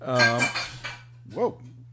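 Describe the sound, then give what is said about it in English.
A Sigg bottle falls from a dish rack into a sink with a short burst of clattering over a low steady hum, and a voice is briefly heard. “My Sig bottle just fell out of the dish rack and back into the sink.”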